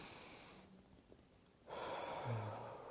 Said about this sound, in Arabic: اشرب شوية مية، وبعدين خد نفس عميق